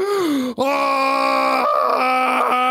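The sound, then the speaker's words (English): A voice imitating a man sitting up and screaming, a loud, sustained, strained cry with a rough, groaning edge that breaks off once briefly and then carries on without a pause to the end. “sits up and screams”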